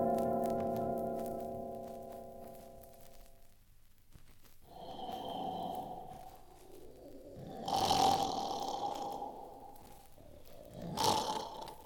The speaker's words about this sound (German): Liegen unter einem Baum und schnarchen,